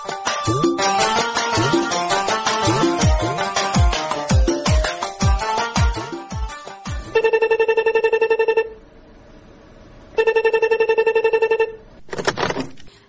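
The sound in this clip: A telephone rings with an electronic tone after a stretch of music with sharp percussive hits. It gives two long, loud ringing bursts separated by a pause, and a third burst begins just before the end.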